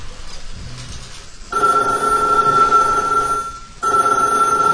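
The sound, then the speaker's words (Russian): A telephone rings at a New Year's gathering with a steady, bright, buzzing tone that comes in two long rings with a brief gap between them, loud and with no voices over it. “Вот он, значит говоря, телефон. По нему, да, нужно звонить.”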